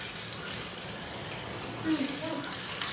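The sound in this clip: Water pours and rinses in a bath, a continuous splashing hiss that runs steadily for the whole few seconds.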